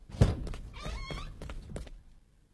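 Knocking on a door: a few hollow thunks, the first sharp and loud, then softer knocks spaced irregularly before the sound fades out.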